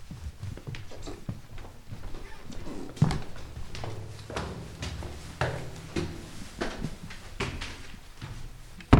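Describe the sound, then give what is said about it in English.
Footsteps climbing a small spiral staircase in a historic building: many soft, fairly regular thuds and scuffs over a low, steady background, with a sharper step now and then. “Let's climb the stairs.”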